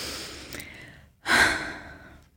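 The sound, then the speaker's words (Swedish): A person takes deep breaths: a softer airy breath comes first, then after a short gap a louder, longer sighing exhale that slowly fades, with no talk over it. “Om du istället kan ta några djupa andetag.”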